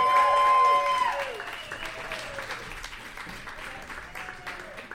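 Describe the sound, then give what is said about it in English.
An audience at a live show applauds in a steady stream of clapping that is loudest at the start, then settles and holds at an even level to the end. “How about a big warm round of applause for Robin Hatch”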